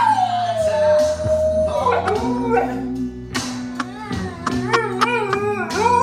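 A big dog howls in long, wavering tones. The first slides downward in pitch, and later howls rise and bend with short breaks and yips between them. The howling is loud and heard alone.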